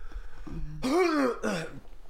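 Coughing and throat clearing from someone with an anchovy bone stuck in the throat: two strained, raspy, voiced bursts, the first longer, fairly faint and with no talk.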